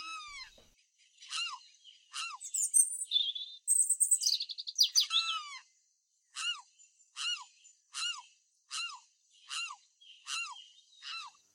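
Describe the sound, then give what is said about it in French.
Robin chicks chirp from their nest with high, thin, downslurred calls. A few scattered peeps lead into a dense burst of overlapping twittering, then a steady series of evenly spaced chirps follows, with no other sounds. “Oh, de petits oisillons tout duveteux, encore blottis dans leur nid.”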